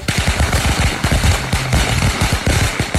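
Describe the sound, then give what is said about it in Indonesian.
Firecrackers set off at midday make a dense, rapid string of loud, sharp pops that run on without a break. “Sopo ta iki awan-awan kok nyumet mercon, gak mrebeki tenan, gak suarane cedok banget ki.”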